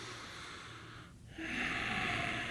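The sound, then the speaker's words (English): A person takes a breath of air, a breathy hiss through the nose that swells suddenly louder about halfway through and holds steady to the end, with no talk. “That was not a nutritious breath of air. Take another breath.”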